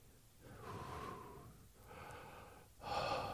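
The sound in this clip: Heavy breathing from someone catching their breath, with a few long, noisy breaths rising and falling in waves. The breaths are faint, and the last is slightly louder.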